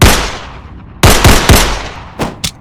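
Gunshots fired by armed men in a confrontation: six sharp, loud bangs, each with a decaying tail. One comes at the start, then three in quick succession, then two lighter shots close together. No one speaks.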